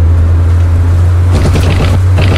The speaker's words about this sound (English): This is the sound of someone driving along a road at night. He's not drunk. He's not speeding.